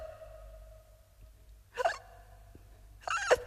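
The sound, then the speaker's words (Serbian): Two sharp hiccups from a child gulping food without chewing, each a brief, high catch in the throat, spaced about a second and a half apart over a faint low hum. “Kako to jedeš? Opet štucaš. To je zato što ne žvaćeš.”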